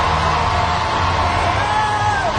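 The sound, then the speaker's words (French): A huge street crowd of about 300,000 people in Paris roars in delirious cheering as a procession passes. The yells and whoops blend into one loud, unbroken wash with no pauses. “il passera devant cette foule en délire qui avoisine les 300 000 personnes dans les rues de Paris”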